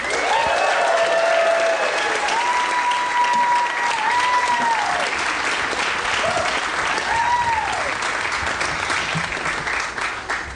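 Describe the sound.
An audience at a live show during the 2016 New York City Comedy Festival applauds a comedian, dense continuous clapping with a few whoops rising above it, easing slightly at the end.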